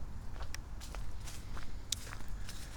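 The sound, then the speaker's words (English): Footsteps walking outdoors near ponds and a land bridge: a quiet, steady series of soft, irregular steps over a faint background hiss. “But I am about to walk out of the back 40.”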